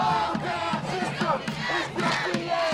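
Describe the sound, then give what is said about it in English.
Chanting crowd at a protest demonstration in Madison over a police shooting, many voices shouting rhythmic phrases together in loud, pulsing bursts. “This is the sound of a demonstration here in Madison, just a couple of miles from our studio.”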